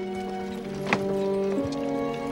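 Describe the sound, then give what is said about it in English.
A horse-drawn wagon drives away, its hooves clip-clopping faintly beneath sustained steady tones, with one sharper knock partway through. “Martin drives the wagon, leaving Lind behind. Amelia steps outside to watch them go.”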